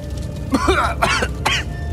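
Rough coughing and throat clearing from a person caught in fiery heat: a few harsh, breathy bursts in close succession over a steady low rumble.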